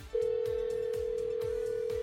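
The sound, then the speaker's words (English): A telephone tone sounds as an outgoing call is placed: a single unbroken, mid-pitched tone holds steadily for about two seconds over faint, regular low thumps. “All right, we're going to call him up.”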